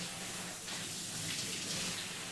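Hot bath water pours in a soft, continuous splashing hiss that stays faint and even from start to finish, without pauses or separate drops.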